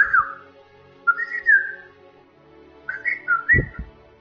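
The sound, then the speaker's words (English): Human whistling made with the tongue, a few short bright melodic phrases separated by pauses, with a couple of low thumps near the end. “Then you start blowing some whistles with your tongue.”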